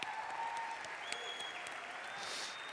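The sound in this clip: Church audience applauding to welcome a speaker to the front, a dense, steady wash of many hands clapping that holds evenly throughout at a fairly soft level, with no voices rising above it.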